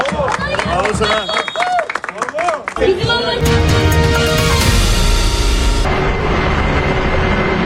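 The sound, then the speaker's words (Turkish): Football players applaud a young boy after a win. Talk comes first, then loud, sustained clapping and crowd noise take over for the rest. “Galibiyet sonrası Minik Muhammed alkışlandı.”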